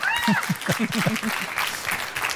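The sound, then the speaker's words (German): Audience applause for a woman on a bus and her storyteller, dense clapping that runs throughout with voices calling out over it near the start. “Beifall für die Frau im Bus und für Sie.”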